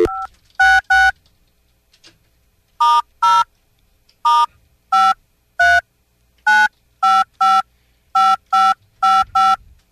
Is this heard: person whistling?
no